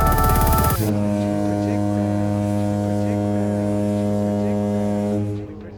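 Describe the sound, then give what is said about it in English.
A long foghorn blast opens with a harsh, buzzy burst, then settles into a loud, steady, deep tone with strong harmonics. It holds for about five seconds before a quick fade. “That's a long foghorn.”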